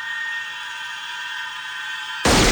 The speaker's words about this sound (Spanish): Le dispara en la cabeza.